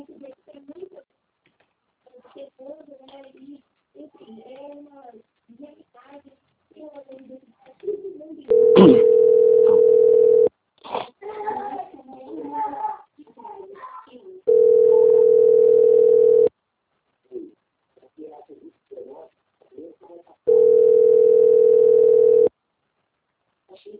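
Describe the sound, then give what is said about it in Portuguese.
A telephone line tone plays while a call is transferred: three long, steady mid-pitched beeps of about two seconds each, with a voice talking in the gaps between them. “peço que o senhor aguarde em linha, que eu vou transferir o contato para o controle de qualidade”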